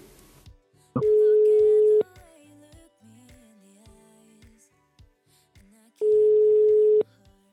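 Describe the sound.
Ringback tone of an outgoing telephone call: two steady, mid-pitched beeps, each about a second long, separated by roughly four seconds of near silence with faint background sounds.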